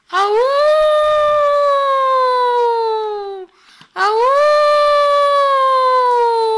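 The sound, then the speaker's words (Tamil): A wolf howls twice, loud and sustained. Each long howl rises sharply at the start and then slides slowly down in pitch, with a brief break between the two. “இங்க பாரா, ஓநாய்.”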